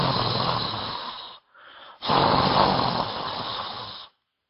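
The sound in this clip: A voice imitates a snore while mimicking a mispronounced Arabic letter kha: a harsh, raspy, throaty rush in two long bursts with a shorter, softer one between them, then silence.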